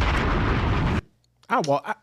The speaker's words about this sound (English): I'm going to drop one more bomb for him. One of Clue's bombs.